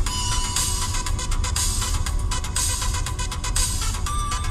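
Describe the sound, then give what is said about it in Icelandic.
A mobile phone ringtone plays a song, heard as a loud, dense, harsh wash of music with faint rhythmic beats running without a break. No one speaks over it. “Þetta gott lag Símhringingin þín”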